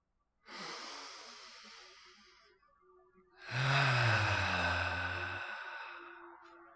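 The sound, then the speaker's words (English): A deep breath drawn in, then let out through the mouth on a voiced 'ah': one long, airy inhale followed by a louder exhale carrying a sustained low 'ah' tone that gradually fades. “Let's take a deep breath in and then exhale through the mouth with an ah sound.”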